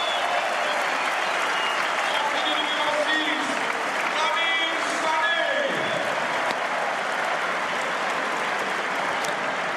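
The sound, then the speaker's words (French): Stadium crowd ovation at a football legends match as star players leave the pitch and others come on: loud, sustained applause and cheering that fills the whole stretch without a break. “Et les stars, les légendes des Girondins sortent au fur et à mesure. Il y en a d'autres qui rentrent. L'ovation pour Johan Gourcuff.”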